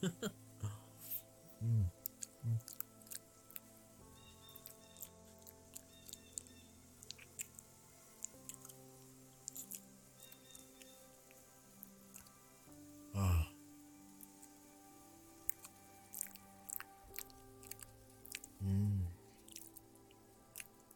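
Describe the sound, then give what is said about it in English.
Soft, wet licking and mouth sounds, with many small clicks and squishes at low volume and a few louder, dull thumps scattered through. “You like it? When I lick around?”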